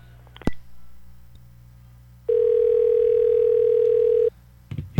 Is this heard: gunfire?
no